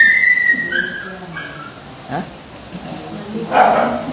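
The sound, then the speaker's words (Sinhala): A puppy gives a thin, high whimper, followed by short, louder barks from a big dog, with quieter gaps between them. “බඩු පැටියෙක් කෑගහනවා. ඈ? දැන් ලොකු බල්ලෙක් කෑගහනවා.”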